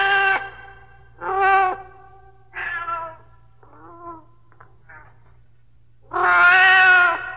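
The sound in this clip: A pet cat meows repeatedly, calling for food: several clear, high, tonal meows separated by pauses, some shorter and softer, ending in one long, loud, drawn-out meow over a low steady hum.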